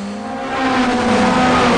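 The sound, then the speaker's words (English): Cars roaring off at high speed after emerging from a single lane, a loud sustained engine roar with a steady pitched drone that swells in volume partway through. “They emerge from the single lane and roar off into the distance.”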